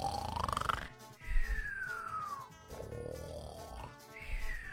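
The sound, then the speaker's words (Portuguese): A person's voice imitates a cartoon character's snore as whistling tones that glide up, then down, over a rough, breathy rumble. The pattern repeats in two cycles and stays fairly quiet. “Porque quando você vai assistir um desenho, geralmente o personagem ele ronca assim.”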